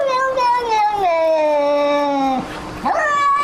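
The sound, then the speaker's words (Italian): A cat meows in a drawn-out, tuneful way, like singing: a long sustained wavering call that slides lower in pitch, breaks off briefly, then resumes higher. “Oltre ai cani che parlano, ci sono anche gatti che non parlano ma che cantano.”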